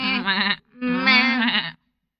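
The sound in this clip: Goats bleat on a bridge: two long, wavering, nasal bleats separated by a short gap, loud and clear, with no talk.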